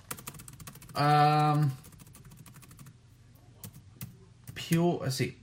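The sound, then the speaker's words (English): Computer keyboard typing comes as rapid, light clicking in quick runs, fairly faint, while a voice speaks briefly in between. “Let me type that in for a second.”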